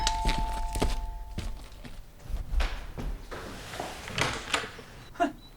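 Footsteps and thuds as someone goes to open a house door for a visitor expected to be the postman. Irregular soft steps and several dull knocking thunks of moderate loudness follow one another.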